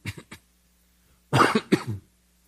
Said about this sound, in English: that was a great time for a cough.